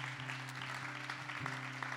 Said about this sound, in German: Komm, lass uns mal klatschen. Und wenn du jubeln magst, darfst du es auch.